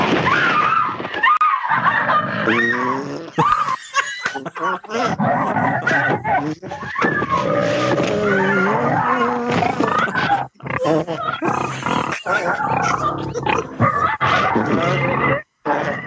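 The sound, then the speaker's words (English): Hungry video game monsters growling: a continuous stream of deep, animal-like roars and snarls with a low belly-rumbling undertone, loud throughout with only brief pauses. “It's got like a belly rumbling noise as well, hasn't it? These guys are hungry and farty and they're ready to go after you.”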